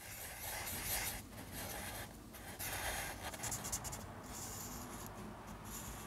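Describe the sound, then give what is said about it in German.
Pencil sketching on paper at the start of a new drawing, heard as a continuous dry scratching and rasping of strokes. It stays fairly quiet and steady throughout, with no voices. “Sein neues Projekt beginnt er erstmal mit einer Skizze.”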